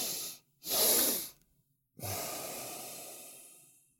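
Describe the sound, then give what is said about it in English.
Two quick sniffing inhales through the nose come in a short double pattern, followed by a long, steady exhale that gradually fades out. The breathing is soft and hissy, with no talking. “you breathe through the nose with a double inhale like this. So a double inhale.”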